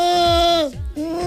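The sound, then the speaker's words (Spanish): A voice imitating an orphaned goat's bleat while warming up to sing, giving one nasal, wavering, bleat-like tone that briefly breaks off and then resumes. “Sí, que parezco una cabra huérfana”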